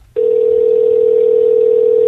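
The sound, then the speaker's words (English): A telephone dial tone heard while placing a call: a steady, continuous single-pitched tone begins abruptly after a brief quiet moment and holds at an even, loud level with no talk over it. “Trying to get this last person to answer the phone.”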